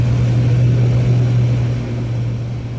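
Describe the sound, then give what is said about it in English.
A light aircraft's propeller engine drones steadily as it takes off from a runway: one continuous, even roar with a low hum, dipping only slightly in loudness toward the end. No voices are heard. “Via Delta 1, runway 09, clear for takeoff, Golf Kilo Oscar.”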